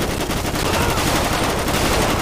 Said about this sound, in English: Shot him dead. One's got an AK.